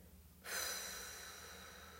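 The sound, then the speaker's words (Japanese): A slow exhaling breath during a relaxation breathing exercise, a soft airy rush that starts abruptly after a brief quiet moment and fades gently as it continues, fairly faint and alone. “はい吸って背筋と笑顔もキープです吐きます”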